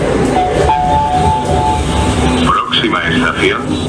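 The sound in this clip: A metro train pulling into a station, used as a sound effect: a loud continuous rumble with steady whining tones, followed by a few rising and falling tonal sweeps, with voices mixed in.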